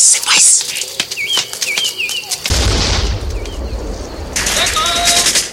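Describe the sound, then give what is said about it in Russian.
A grenade explosion in a wartime forest film scene: birdsong chirps over a quiet background, then a sudden loud low boom about halfway through that carries on as a sustained rumbling roar. “Из-за камня кидает гранату.”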